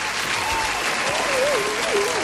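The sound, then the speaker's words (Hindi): Loud audience applause for a quiz show contestant: dense, steady clapping fills the whole stretch, and a voice briefly rises over it toward the end. “जोरदार तालियां हो जाए, जोरदार तालियां।”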